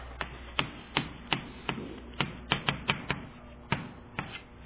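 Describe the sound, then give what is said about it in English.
Handwriting on a board, heard as a rapid, irregular series of crisp taps and clicks from the writing strokes, sharp and clear with no talk. “So let me write it like that.”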